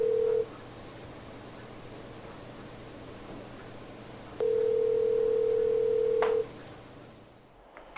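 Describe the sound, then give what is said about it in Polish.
A telephone dial tone sounds as a steady, even hum, first briefly and then again for about two seconds, over a quiet background hiss. “Zadzwonię do ich rodziców.”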